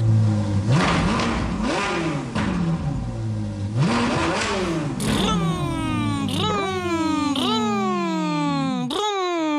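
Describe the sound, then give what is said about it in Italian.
Voices imitate a bus engine revving in a children's song, a series of rising, buzzy 'vroom' sweeps repeated in a steady rhythm, with a child's voice joining in. “Allora, come fa The Motor on the Bus, il motore del bus?”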